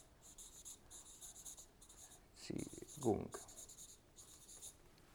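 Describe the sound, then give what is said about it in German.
Scratchy writing strokes as a heading is written above a note during a talk on the time before the Crucifixion, coming in repeated bursts, with brief voice sounds in the middle. “vor der Kreuzigung schreibe ich oben drüber.”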